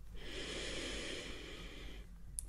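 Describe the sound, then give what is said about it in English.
A long, steady deep breath taken on request during a mock doctor's examination of a patient's back, soft and airy and lasting about two seconds, with no talking. “Okay, one more time, deep breath in, and out.”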